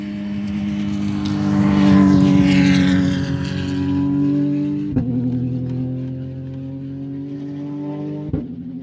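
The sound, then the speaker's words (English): A racing vehicle downshifting as it enters the keyhole corner of a track: a loud, continuous engine drone with shifting pitch, broken by two sharp blips as gears drop. “You hear how much he had to drop his gears to kind of get in there. Downshifting.”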